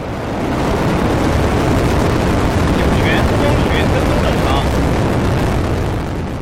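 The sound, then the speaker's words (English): A Long March 2F rocket ignites and lifts off at night carrying a crewed spacecraft, a loud continuous roar that swells in at the start, holds steady and eases slightly at the end. “Then the Long March 2F rocket ignites beneath Shenzhou 23 and lift off.”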